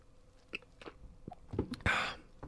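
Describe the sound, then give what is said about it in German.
Sips and swallows of a drink, heard as soft mouth clicks and gulps that build to a louder, breathy exhale near the end; quiet overall. “Ich werde jetzt ein bisschen was trinken. Einen Moment.”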